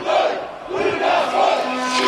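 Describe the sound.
Agitated crowd at a violent protest in Victoria Square, many voices shouting and roaring together in loud surges, with a brief dip before the noise swells again.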